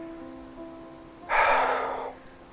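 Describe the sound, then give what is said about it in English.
A single deep exhale during a guided prayer and reflection exercise, a soft breathy rush of air lasting under a second and fading out, heard alone over a faint steady hum. “So together, let's practice the rule of life. Let's exhale.”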